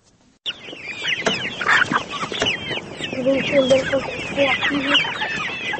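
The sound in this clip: Chickens cluck on a poultry farm holding about 1,000 hens, many overlapping clucks and squawks forming a dense, busy chorus that starts abruptly and carries on throughout.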